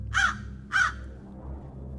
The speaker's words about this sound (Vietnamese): Thoáng nghe tiếng quạ kêu giữa đêm